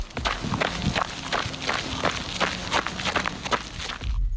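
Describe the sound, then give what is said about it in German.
Crunchy footsteps of someone jogging on a gravel path, with many crisp steps in a steady, quick rhythm, alone with no voices. “Das klang irgendwie so knusprig, als würde jemand über einen Schotterweg laufen. Ist da vielleicht jemand am Joggen? Ganz genau.”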